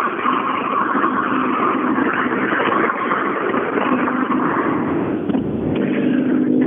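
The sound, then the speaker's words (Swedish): A car approaching on a road during a police speed check gives a loud, steady engine roar with a rushing whoosh that holds throughout. “Ja, nu börjar det komma en bil ner här.”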